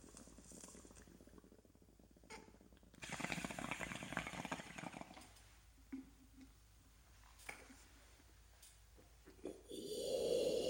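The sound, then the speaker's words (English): A bowl being smoked from a bong brings gurgling water bubbles and breathy inhalation. Quiet overall, it swells louder in irregular bursts, with a thicker bubbling burst at the end. “hold on, I'm going to rip this bowl and then I'll finish this thought”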